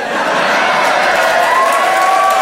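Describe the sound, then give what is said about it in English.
Audience slow hand clap at a live comedy show, heard as loud, steady clapping mixed with crowd noise that continues evenly for a couple of seconds. “Who's doing that slow hand clap?”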